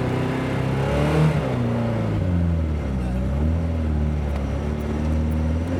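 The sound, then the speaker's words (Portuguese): An engine runs with the throttle held open and the choke engaged, making a loud, continuous droning rumble whose pitch wavers slightly up and down. “deixar o acelerador puxado agora no afogador.”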